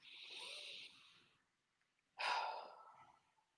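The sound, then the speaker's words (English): A deep breath taken during a meditation, heard as two soft, airy breath sounds separated by a short pause, the second starting more sharply, alone and quiet. “It could look like just that simple. Taking a deep breath.”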